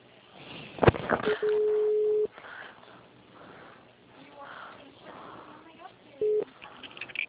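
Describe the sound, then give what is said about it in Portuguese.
Telephone tones from an outgoing call being placed: one long, steady, mid-pitched tone, then a much shorter one a few seconds later, over a low background with faint talk. “Tô ligando de novo.”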